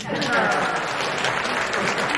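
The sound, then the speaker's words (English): Townspeople applaud at a Christmas celebration gathering, a dense, steady clatter of many hands clapping with voices mixed in. “Kate applauds along with the townspeople.”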